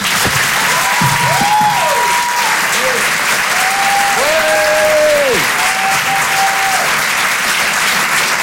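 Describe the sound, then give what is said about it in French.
A comedy club audience at the Apollo applauds loudly for a stand-up comedian leaving the stage, a thick, even roar of clapping throughout with voices calling out above it. “Vous pouvez l'applaudir très fort, Miri sur Rire et Chanson. Bravo Miri.”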